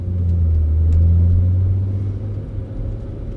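Car driving past apartment buildings, a low steady engine rumble that swells early, then eases slightly toward the end.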